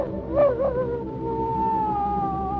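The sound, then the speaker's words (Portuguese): A hungry wolf howls near a flock of sheep at night: a long, wavering, tonal howl holds steady through the whole clip, with a couple of short swooping bumps near the start. “E viu uma coisa horrível, horrível. Um lobo faminto havia encontrado o rebanho e Cordélios ficou apavorado.”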